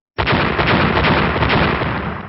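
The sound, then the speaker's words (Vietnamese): A loud explosive roar from a fantasy battle clash bursts in suddenly and holds as one dense, rumbling blast for about two seconds, easing slightly toward the end. “Liên tục bốn tiếng nổ lớn vang lên”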